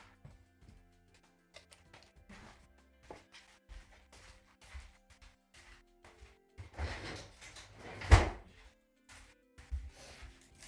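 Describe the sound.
A lunch container being opened: quiet handling rustles and light clicks lead up to one louder snap of the lid near the end, followed by a few softer knocks.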